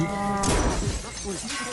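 A brown cow gives a brief low moo at the start, then a dense, noisy crash-like clatter follows.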